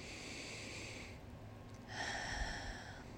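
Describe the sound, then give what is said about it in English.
A single slow, deep breath: a soft, airy rush of air through the nose and mouth that swells and then eases. It is quiet and stands alone, with no talking. “Take a deep breath.”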